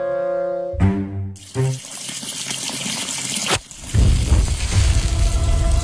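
Water running from a tap, a loud rushing gush that sets in after a brief buzzing tone, stops and restarts in bursts before flowing on steadily.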